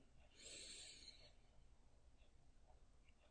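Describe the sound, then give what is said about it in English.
A deep breath drawn in during a guided relaxation exercise, one soft airy inhale lasting about a second, faint and alone, followed by quiet. “This next exhalation, just allow your body to sink a little deeper onto that chair. So let's inhale in”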